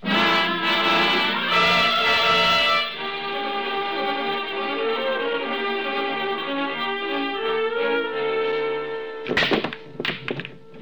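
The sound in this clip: Billiard balls struck on the break shot: a few sharp knocks and clacks near the end, after a long sustained musical passage.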